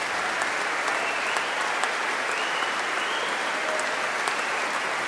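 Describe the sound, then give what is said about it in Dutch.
Concert audience applause follows an early-music performance featuring viola da gamba, bassoon and serpent. Steady, dense clapping from many hands holds an even level throughout, with a few sharper claps standing out and no talk. “Applaus ook voor Lucille Perret op fagot.”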